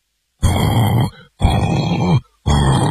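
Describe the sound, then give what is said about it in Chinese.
Voices imitating snoring, people pretending to be asleep: three loud, rasping, gravelly bursts, each under a second long, separated by short pauses, with no talk. “四个人啊比赛着打呼噜，打着打着呀”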